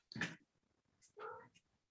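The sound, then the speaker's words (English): A cat meows, a short rough cry followed by a longer, clearer tonal meow, both fairly faint and separated by a quiet gap. “this cat just attacks me, sleeps all day. As soon as I turn this on, it's go time.”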